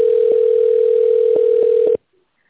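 Steady telephone line tone plays while a call is transferred to an administrator. It holds at an even level for about two seconds, then cuts off abruptly into silence.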